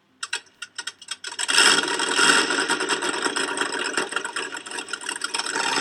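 A boat engine in the UAE starts with a few short, sharp knocks, then settles into a steady, rough, rasping roar that runs loud and continuous to the end.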